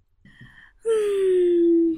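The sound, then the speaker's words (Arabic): A deep breath during a calming guided relaxation: a soft inhale, then a long, loud voiced exhale like a sigh, its tone gliding slowly downward for about a second. “شهيق زفير”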